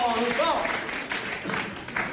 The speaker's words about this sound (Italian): un altro, un piccolo applauso per Romano Prodi